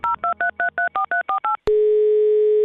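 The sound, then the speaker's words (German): A telephone dials a call to Vienna: eight quick touch-tone beeps in an even rhythm, then a loud, steady tone holds to the end. “Anruf bei Elfriede Sixt in Wien.”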